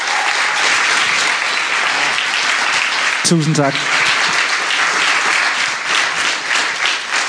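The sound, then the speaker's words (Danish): An audience applauds the musicians who have just performed, with dense, steady clapping throughout. A man's voice briefly says thanks partway through. “Skal vi lige have en hånd for musikken?”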